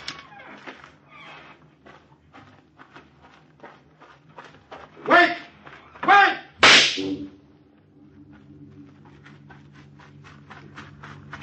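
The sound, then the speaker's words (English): Gunshots fired to call someone's attention: three sharp, loud cracks about a second apart, standing out over quieter shuffling sounds. “Did you not hear me shoot off a gun to call your attention?”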